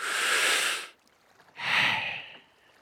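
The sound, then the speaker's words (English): A deep breath drawn in through the nose, heard as two loud, airy bursts of breath, each close to a second long, separated by a short quiet pause. “And instead of only smelling one smell, I take a deep breath of them all.”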